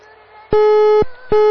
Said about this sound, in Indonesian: Terputus. Coba lagi di nomor yang sama